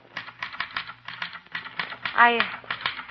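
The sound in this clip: Typewriter keys clatter in quick, irregular bursts as someone types a newspaper editorial, with a voice speaking briefly over the clicking.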